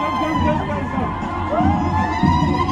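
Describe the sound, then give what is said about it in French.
Thousands of people in a stadium in Erbil sing and cheer for Pope Francis as he rides in the popemobile, a dense, steady roar of voices that stays loud for the whole stretch. “Il a enfin pu sortir en papa mobile, François, à l'intérieur du stade. Et sa joie s'est vue sur son visage et sur celle des 10 000 personnes au moins qui l'ont accueilli en chantant et criant.”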